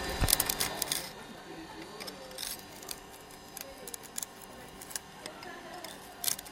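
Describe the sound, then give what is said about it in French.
Glass pliers snap off excess cut glass in a stained-glass master glassmaker training workshop at a lycée in Yzeure. Sharp, brief cracks and clicks come at irregular intervals over a faint background. “Là, j'essaie juste de retirer en fait le verre en fait qui me dépasse de ma coupe donc euh, j'essaye au maximum de, me rapprocher. J'utilise une pince pour euh, venir pincer le verre et ensuite je viens exercer une force”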